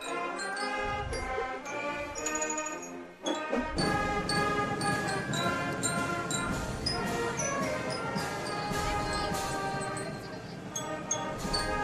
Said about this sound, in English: That's the 12th man, the Strathaven Marching Unit. Pat Murray leading the charge there tonight.